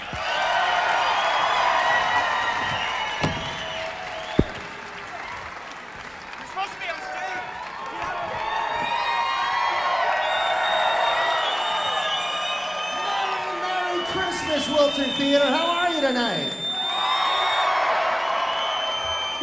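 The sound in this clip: A crowd cheers and applauds as a voice-actor guest is introduced and walks on stage, with whoops and shouts over sustained clapping that swells and continues for nearly twenty seconds.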